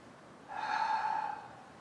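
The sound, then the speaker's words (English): A deep breath drawn through the nose during a guided breathing exercise: one airy, slightly nasal rush lasting under a second, heard alone against quiet. “Taking three last deep breaths in through the nose, out through your mouth, really filling your body up as you breathe in, really releasing in the exhalation.”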